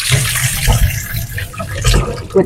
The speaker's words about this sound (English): I'm just going to wash my hands because I've been licking my fingers.